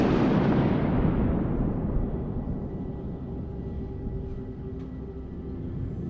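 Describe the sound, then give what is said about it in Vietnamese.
Rolling thunder as a storm breaks over a small village: a loud, broad crash at the start that slowly decays into a long, low, continuous rumble. “Ngoài trời đang quang đãng mây tạnh thì bỗng dưng mây đen kéo đến mịt mù, sấm chớp nổi lên ầm ầm, xé nát cả bầu trời”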